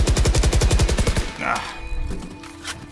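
Gunfire in a video game, with shots fired through a wall that may be wooden: a rapid, evenly spaced automatic burst lasting just over a second, then a few scattered, quieter impacts.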